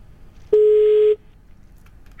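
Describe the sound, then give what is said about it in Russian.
Telephone line tone on an outgoing call, a single steady mid-pitched beep lasting just over half a second against faint hiss, followed by quiet. “вот сейчас прямо с прямого эфира звоним, да, дождемся гудков и посмотрим”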